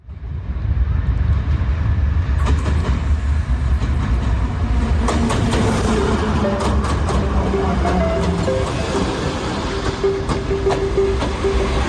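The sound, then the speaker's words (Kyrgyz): A train rumbles along with a loud, continuous low roar and a rattling clatter, and faint tonal squeals join partway through. “Бул дагы мындай, бул поезд бул эң арзан, эң ыңгайлуу коомдук транспорттордун түрү.”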